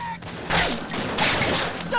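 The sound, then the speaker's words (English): Gunmen fire a barrage of shots into a toilet, with loud overlapping gunfire coming in two heavy surges and brief voices at the start and end. “He fires and shoots Dick in the stomach. The regulators fire a barrage of shots into the toilet.”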